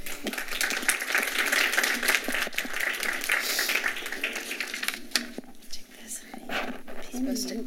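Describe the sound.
Applause from an evening gathering welcoming a guest speaker: a dense wash of clapping for about five seconds that then thins, with people talking as it fades.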